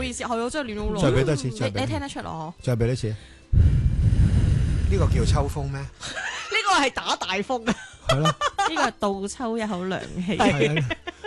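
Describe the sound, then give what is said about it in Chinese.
A voice imitates an autumn wind by blowing, producing one breathy, rushing gust of about two and a half seconds between stretches of lively talk and chuckling. “等我嚟一个秋风起嘅效果先。”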